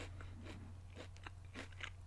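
Faint, crisp crunches of someone biting and chewing a hot honey flavored snack, several short dry bursts at uneven intervals over a low steady hum.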